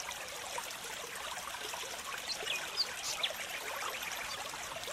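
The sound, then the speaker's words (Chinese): Cool stream water flowing in a soft, steady hiss and trickle, quiet and continuous with no voices. “从大石头上走下来，走到溪水当中，让你的脚浸泡在这个清凉的溪水当中。”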